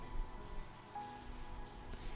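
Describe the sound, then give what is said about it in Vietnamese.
Cold night rain falls outside a window, a faint, steady patter that continues evenly throughout. “Ngoài song cửa là đêm mưa lạnh lẽo, thanh âm tí tách kia tưởng chừng như rẽ xuyên từ tai vào não”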